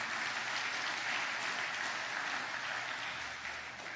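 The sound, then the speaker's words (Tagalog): A church audience claps in thick, continuous applause that holds steady and eases slightly at the end. “Pwede po bang palakpakan natin ang Panginoon?”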